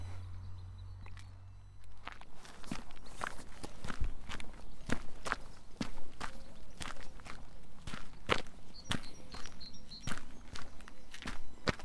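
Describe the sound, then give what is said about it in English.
Footsteps descending the 114 steps down to the foreshore on the Dorset Jurassic Coast: many steady, evenly paced treads that begin after a low rumble and then continue at a regular walking rhythm. “It's time to descend the 114 steps down to the foreshore.”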